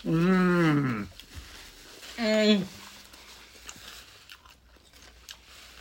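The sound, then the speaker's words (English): A person bites into and chews a Parmesan garlic food while taste testing it. Two short vocal sounds come first, then a series of faint, crunchy chewing noises. “I'm just going to test taste this. And I'm going to test taste it in 3, 2, 1.”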